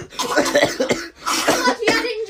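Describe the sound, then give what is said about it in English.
A seventh-grade girl imitates coughing with her voice: two loud, rough bursts, each a cluster of rapid, hacking cough-like sounds. “he fell to the floor, like, coughing.”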